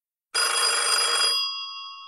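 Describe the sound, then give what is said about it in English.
A telephone bell rings loudly and steadily in a home, starting abruptly with a dense, bright metallic trill that holds for about a second before thinning into a fading, sustained ringing tone. No one speaks. “And the phone rang. So I picked it up.”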